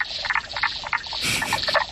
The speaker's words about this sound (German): Ja, es ist eine Kröte, genauer gesagt die Knoblauchkröte.